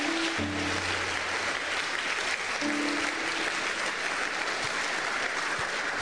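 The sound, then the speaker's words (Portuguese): A church audience claps for the Lord, keeping up a steady, dense patter of many hands for several seconds at a moderate, unchanging level. “Many have learned something today? Put your hands together for the Lord. Quantos estão abençoados? Palmas para o Senhor.”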